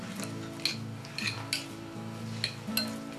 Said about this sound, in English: and my cream cheese, and this has to be worked together, softened. Soften it with a fork